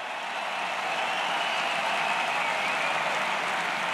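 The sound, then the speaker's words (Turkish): Tennis spectators in the stands applaud during a Zverev–Cobolli match at an Italian tournament. The soft, steady clapping forms a continuous rain-like hiss with no voices. “Bu da alkış aldı Lipşatriye tribünlerinden.”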